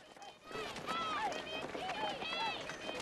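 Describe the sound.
Running footsteps of several young men circling a sports track, a quick steady patter that continues throughout, with voices and high chirping or whistling tones over it.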